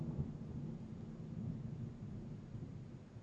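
Thunder rolls as a faint, deep rumble that stays fairly steady for about three seconds, with a slight swell partway through and no voices.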